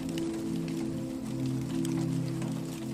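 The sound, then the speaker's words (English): Rain tapping on a roof as a storm intensifies, a steady dense patter over a constant low hum, even in loudness throughout. “The rain taps on the roof and lulls you into a trance.”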